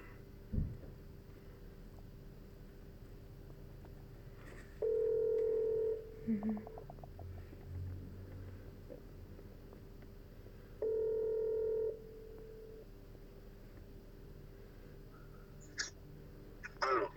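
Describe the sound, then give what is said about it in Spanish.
A telephone call goes unanswered with two ringback tones, each a steady mid-pitched purr about a second long, spaced about six seconds apart. Faint clicks and soft background noise fill the gaps between them. “Estaba que lo llamaba a Picaflor, pero no contesta.”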